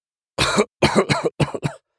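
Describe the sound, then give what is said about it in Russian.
Harsh, raspy coughing comes in five quick bursts as someone struggles for breath after reviving. One cough opens, followed by two closely spaced pairs, loud and alone. “Кашляя, я с сипением вдохнул полной грудью”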